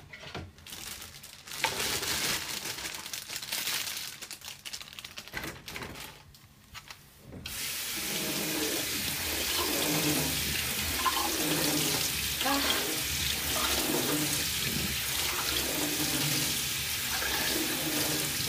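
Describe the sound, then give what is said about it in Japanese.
Tap water runs over pre-cut vegetables in a sink, a steady rushing hiss that fills the second half. Before that come intermittent handling noises and splashes at a lower level. “カット野菜って洗った方がいいのかな。ちょっと軽く水で洗って。”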